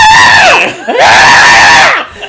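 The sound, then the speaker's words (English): A Hamilton hound screams in two loud, shrill, drawn-out wails, each bending in pitch, with a short break between them. “nobody needs to hear a Hamilton Hound scream.”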